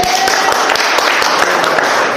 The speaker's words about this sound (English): Give them a mighty clap to Jesus.